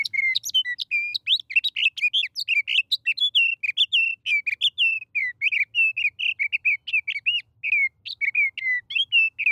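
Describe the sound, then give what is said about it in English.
A sage thrasher sings from atop sagebrush in a loud, rapid, nonstop run of high warbled and whistled notes that vary constantly in pitch, with no other sounds behind it. “When a sage thrasher, perched atop a clump of sagebrush, tips its head back to sing, the notes rush forth.”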